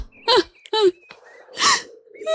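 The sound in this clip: A person crying at a graveside: a few broken, sobbing vocal bursts with wavering, whimpering pitch, separated by short gasps and quiet gaps.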